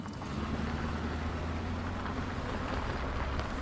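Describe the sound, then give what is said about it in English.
A car engine runs steadily while driving during a driving lesson, giving a low, constant drone with breathy, wind-like noise over it. It is fairly faint, and no one speaks. “Okay, engine's running. Into gear. Check those mirrors. And handbrake.”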